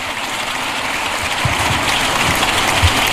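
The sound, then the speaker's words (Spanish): Long applause in a parliamentary chamber for Gustavo Petro, a dense, even patter of many hands clapping with a few louder low thumps, steady and fairly loud. “Aplauso largo también a Gustavo Petro.”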